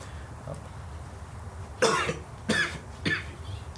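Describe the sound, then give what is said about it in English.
Three short, dry coughs from a pale, malnourished young man in damp, watery air. Each cough is a brief, sharp burst with quiet pauses between. “He kind of just like gives a little cough.”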